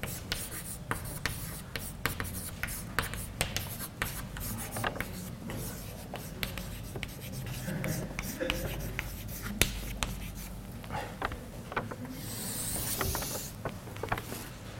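A pen or chalk writes on a board during a lecture, making many short scratchy strokes and taps in an irregular rhythm that continue throughout at a fairly quiet level.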